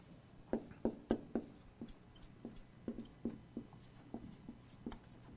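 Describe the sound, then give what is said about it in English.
A chair being drawn by hand: many quick, faint scratchy strokes in an uneven rhythm, in bursts separated by brief pauses. “I'm going to try to draw a chair, so, you know, excuse my drawing here.”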